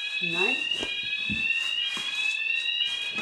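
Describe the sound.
An alarm rings inside a flat, a continuous high-pitched electronic tone that stays steady throughout while people talk over it.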